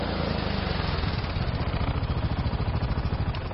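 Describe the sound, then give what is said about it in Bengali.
A motorcycle engine idles low as the bike slows, giving a steady, loud, throbbing rumble with an even pulse throughout and no voices. “Ayan বাইকের গতি আরো কমিয়ে দিয়েছে।”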